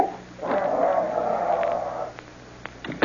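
A dog named Buster growls in a radio drama, a rough, sustained snarl lasting about a second and a half before it breaks off into quieter, scattered noises.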